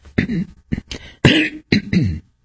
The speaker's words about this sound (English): Sorry for the coughing.